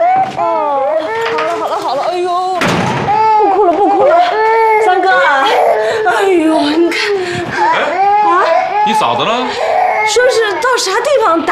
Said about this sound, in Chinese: 宝贝儿不哭了不哭了